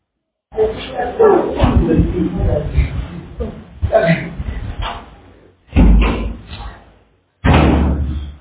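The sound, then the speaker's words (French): A door is closed with two loud, heavy slams, deep booming thuds separated by a short pause, coming after a stretch of people talking. “Donc, ici, fermez la porte.”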